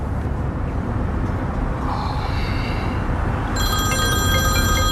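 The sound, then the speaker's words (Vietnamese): Telephone bell ringing that starts partway through, bright and metallic with steady trilling, rising over a constant low background rumble that fills the whole clip. “Vừa nói thì gọi điện tới rồi.”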